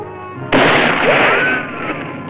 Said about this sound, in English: The bullet glances off the metal, leaving a dent.